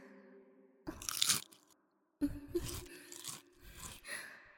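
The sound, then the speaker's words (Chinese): A potato chip is bitten and crunched, with a crisp burst of crackling followed after a short quiet by a longer run of chewing crunches. “要我试试吗？那好，先来一片薯片。”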